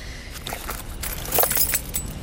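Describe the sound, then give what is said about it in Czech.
Keys jingle as someone rummages through a handbag for a door key. Small irregular metallic clinks and rustles come in uneven bursts, with a brighter cluster of jangles midway, all fairly quiet and without speech. “Mohl bys mi najít v kabelce klíč od dveří?”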